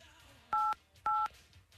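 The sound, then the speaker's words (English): Two telephone keypad dialing tones sound as short, evenly spaced beeps of equal length over a faint low background hum. “Wow, I dialed slowly.”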